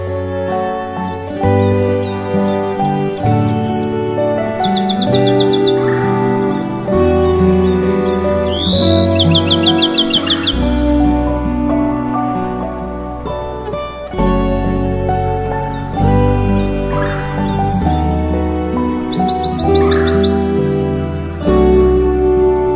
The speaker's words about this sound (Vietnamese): Các loài chim quý cất giọng hót líu lo, thánh thót hát cho mỏm đá nghe những bài hát hay nhất của loài chim.